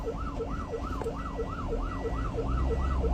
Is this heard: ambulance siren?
yes